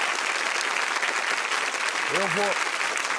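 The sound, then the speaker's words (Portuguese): Clapping from an audience, a dense, steady patter of many hands at even loudness, with a brief voiced sound rising over it near the end. “eu aplaudo só um pouquinho, porque eu também tenho um pezinho lá.”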